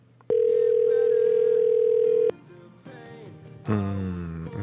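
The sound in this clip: A single long, steady voicemail beep on a phone line holds at an even mid pitch for about two seconds, then gives way to quieter line noise and a brief louder burst of sound.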